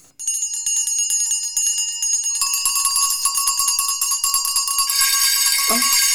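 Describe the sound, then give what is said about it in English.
Every bell in a house ringing at once, a loud, continuous, bright jangle of high tinkling tones that turns denser and more clamorous partway through and keeps clanging without pause. “Every bell in the house must be ringing.”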